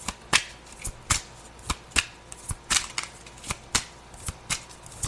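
Tarot cards are shuffled by hand, giving many crisp snaps and flicks in an irregular, fairly quick rhythm, moderately loud, with no talk over them.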